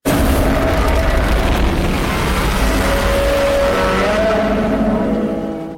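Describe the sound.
Heavy, continuous rumbling and roaring booms from a Godzilla Minus One movie trailer, dense and loud from start to finish before tapering off right at the end.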